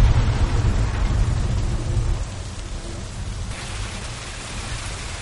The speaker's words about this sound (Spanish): Comienza a llover con más fuerza.